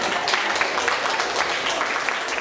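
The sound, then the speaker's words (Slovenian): Applause from an audience, a thick and steady wash of many hands clapping that holds at an even level for the whole short stretch. “ta aplavz je bil tudi za vas”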